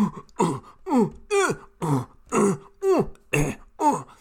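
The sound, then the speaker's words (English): Voice imitating Inuit throat singing by two women at a performance: a steady, rhythmic run of short guttural, throaty grunts, evenly spaced and fairly loud, each with a sharp falling voiced edge, with no other talk. “Canada, and there's a performance of Inuit throat singing, and they just cannot stop themselves laughing because these two Inuit ladies are basically going”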